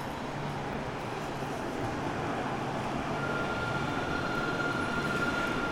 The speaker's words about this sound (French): Le bruit que vous entendez, c'est le tramway.